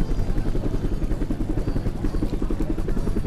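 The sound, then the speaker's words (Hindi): A helicopter dropping food and drink packets gives a rapid, regular thudding of rotor blades over a low engine drone. The pulses are loud and unbroken, with no voices. “देख गिद्ध, वो देख, वो सामने खाने पीने के packet गिराते उस हेलीकॉप्टर को देख”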